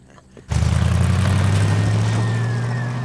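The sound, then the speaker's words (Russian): A small home-built car's engine kicks in abruptly and drones loudly and steadily with a deep low hum as it drives off through an evening city. “Сев в автомобиль, они направились по вечернему городу.”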